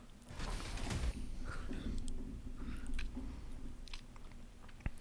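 Crunchy chewing and biting of a donut during a donut tasting: a steady run of many moist, crackly bites and chews, fairly faint and continuous, with one sharper crunch near the end.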